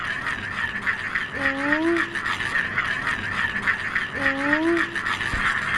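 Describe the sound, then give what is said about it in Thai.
A traditional Thai spinning toy called a cicada gives a steady rasping whirr, broken twice by short rising tonal sweeps. “เขาตั้งชื่อจักรจั่นเพราะเสียงมันเหมือนจักรจั่นเหรอครับ”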